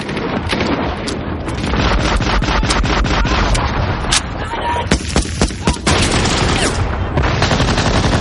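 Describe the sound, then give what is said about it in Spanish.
German 20 mm machine-gun fire in a battle scene from the World War II film Saving Private Ryan: rapid, loud bursts of shots over a roaring din, with several sharp, separate reports near the end. “Los alemanes se hacen fuertes ayudados por la ametralladora del 20.”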